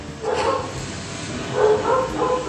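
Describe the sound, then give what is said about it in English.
Neighbour's dogs bark and yip in a few short bursts, fairly faint against a steady, noisy background, with no talk over them. “These dogs, man. I hate dogs, but I hate when dogs do this.”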